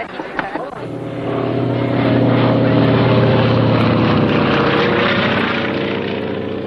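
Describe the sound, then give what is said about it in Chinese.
An airplane drones overhead while dropping leaflets: a loud, steady engine roar that swells after a few faint clicks, holds at full strength and then eases slightly. “一架飞机在撒传单”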